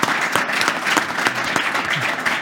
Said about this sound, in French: Je voudrais qu'on remercie et qu'on applaudisse Louis Guillaume, qui est avec nous, conseiller France Rénov'.